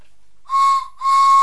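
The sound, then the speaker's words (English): A whistle blown during a children's game of playing signalman gives two steady, shrill blasts. The first is short and the second is held to the end, with no talk. “That's my whistle.”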